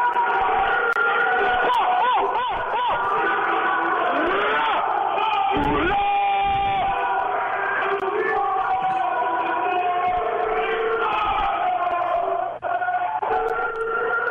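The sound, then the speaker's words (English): Crowd noise inside Bordeaux jail, heard over a phone line: a dense, continuous mass of overlapping voices shouting and calling, loud throughout, with a few sharper yells rising above the din. “Yo, you guys wanted some background noise from Bordeaux? Yes. Do it up.”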